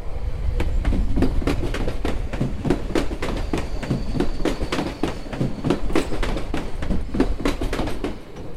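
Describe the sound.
A train from Esztergom arrives on track three with loud, steady, rhythmic clickety-clack of wheels over rail joints and a faint high squeal partway through.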